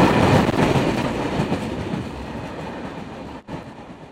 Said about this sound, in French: Un train de marchandises.